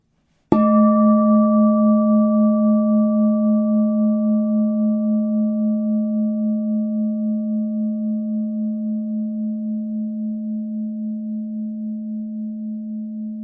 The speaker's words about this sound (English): Hear me sound the Tibetan singing bowl, and as the sound of the bowl reverberates and slowly dies away